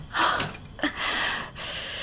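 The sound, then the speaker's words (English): A person drawing deep breaths, with a sharp gasp-like inhale near the start, a brief catch in the breath, then a longer, steady rush of air held to the end. No talking. “Okay, deep breath.”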